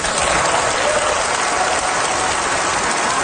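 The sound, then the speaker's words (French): Members of the European Parliament give an ovation in the chamber: sustained, loud applause from many people, a thick continuous clatter of clapping that holds steady from start to finish. “Marc Carny a eu droit à une ovation des députés du Parlement européen”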